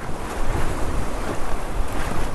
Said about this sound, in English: Each of these boats holds seven paddlers, with everybody digging in time against the water. This is an actual race, with guys on shore with stopwatches keeping time. The rafts twist through the rapids,